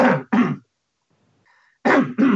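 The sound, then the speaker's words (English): Throat clearing from a person: two pairs of short, harsh, noisy bursts separated by a near-silent pause with a faint tone. “clear my throat”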